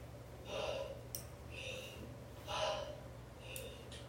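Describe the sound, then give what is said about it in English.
Slow, even breathing demonstrated with inhales and exhales of equal length, as in inverse-ratio breathing. Four soft, airy rushes come at a steady rhythm over a low, constant hum. “it'll make you dizzy after a minute. If you're spending the same amount of time inhaling and exhaling, then we're spending more time with inhalation than we normally do over a minute, which gives us more time for gas exchange.”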